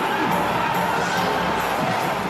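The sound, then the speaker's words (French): Fans cheer and scream at the reveal of Link in a Zelda video game trailer. The crowd noise is loud, dense and sustained from start to end, with whoops rising out of the roar. “Il est de retour et il a changé. Ses traits sont moins enfantins et les fans sont comblés, hurlent jusqu'à la fin de la bande-annonce.”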